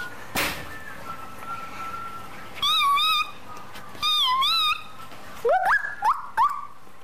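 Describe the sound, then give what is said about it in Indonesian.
A pet dog at home whines in high, wavering squeals: two sustained whines, then a few quick rising yelps. The calls are clear and stand alone against a quiet background. “aku akan panggil anjing piaraanku di rumah”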